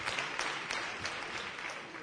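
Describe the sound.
Long, steady applause rises from the audience for the herald of a Rocío brotherhood pregón. The dense clapping continues unbroken for the whole stretch.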